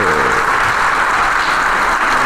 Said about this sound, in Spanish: Sale una vez más y agradece el aplauso del público.